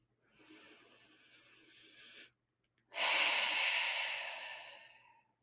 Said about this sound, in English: taking a few deep breaths in through the nose and out through the mouth